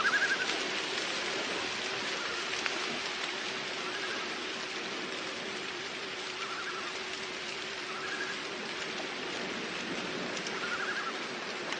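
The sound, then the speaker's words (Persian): Stormy, foggy weather rendered as a steady, even hiss of rain and wind that holds at a constant level throughout, with no voices. “هوا طوفانیه، مه همه جا رو گرفته.”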